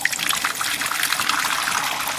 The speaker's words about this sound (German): So, und jetzt läuft hier frischer Whisky.